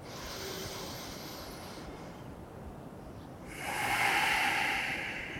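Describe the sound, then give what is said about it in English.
Slow, deep breathing during a guided breathing exercise. A long, soft airy breath is followed by a brief near-silent pause, then a louder, fuller breath, with no voices. “Deep breath in. Slow breath out. Three more like that.”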